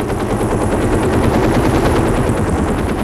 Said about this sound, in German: In dem Augenblick kippte der Hubschrauber nach vorne über.